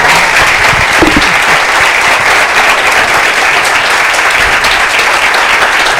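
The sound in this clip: Loud, sustained audience applause of many hands clapping at once. The claps merge into an even, dense roar that holds steady from start to finish.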